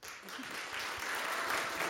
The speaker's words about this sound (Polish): Brawa.